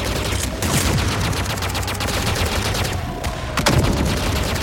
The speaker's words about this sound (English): Listen to that! Kilgore! Put that MG to work!